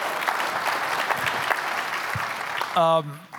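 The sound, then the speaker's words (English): Audience applause for a guest being introduced, steady dense clapping throughout, with a brief voiced call near the end. “Give him a hand, folks.”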